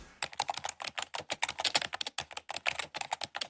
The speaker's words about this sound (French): Voilà, et ça tape et ça pianote. 20 heures pour son travail et 36 heures pour ses loisirs. C'est le temps que nous passerions en moyenne chaque semaine devant un écran d'ordinateur.